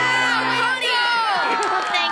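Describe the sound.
Children cheering for their baseball coach, a burst of excited shouts and whoops from many young voices overlapping loudly throughout.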